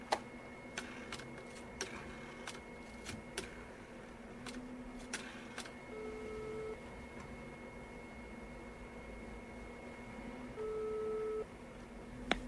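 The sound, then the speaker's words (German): Telephone call tones: a steady hum with faint ticking clicks, then two short mid-pitched ring or dial-tone bursts near the end, with no voices. “Hier ist seine Nummer. Wir könnten ihn gleich mal anrufen.”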